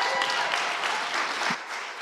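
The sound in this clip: A church audience applauds to welcome a pastor, with dense, steady clapping that dips slightly in loudness near the end.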